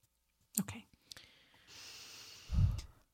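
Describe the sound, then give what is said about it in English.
Slow breathing during a meditation: a few soft clicks, then a long, airy breath that holds steady, ending in a louder, low, breathy puff. No voices. “So I'm just gonna do a couple breaths and send them to you and your mom.”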